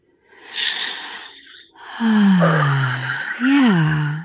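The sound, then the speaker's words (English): Deep breath drawn in with a breathy inhale, then released as a long voiced sigh falling in pitch, followed by a second shorter voiced sigh that rises and falls. “So take a nice deep breath.”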